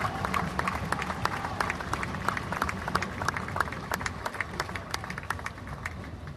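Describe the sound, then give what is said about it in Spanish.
Scattered applause rises from a crowd at a street march, many sharp, moderately loud claps ticking steadily throughout over a low murmur of the gathering. “Quiero el aplauso para esos compañeros, porque nosotros no solamente vamos a rezar, también venimos acá a pelear, compañeros.”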